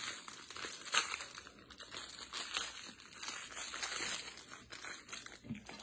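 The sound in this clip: Faint, continuous crinkling and crackling as the plastic wrapper of a packaged filled snack is torn open and handled, with irregular small pops throughout.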